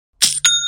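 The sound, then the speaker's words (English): An online store's sale notification chime gives two quick, bright metallic dings, the second ringing on clearly, alone. “that's the sound of another sale on Shopify and the moment another business dream becomes a reality”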